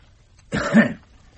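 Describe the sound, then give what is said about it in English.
A single requested cough, short and rough with a throaty, voiced rasp, lasting about half a second, fairly loud against near silence. “Now just give me a cough, will you? And again.”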